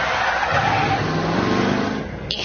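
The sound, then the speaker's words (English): A car brakes hard and skids on a dirt road, producing a loud, continuous rush of engine and tire noise that holds steady for about two seconds before easing slightly. “Wait, turn down here. It's down this dirt road. Brake, Kenny, brake.”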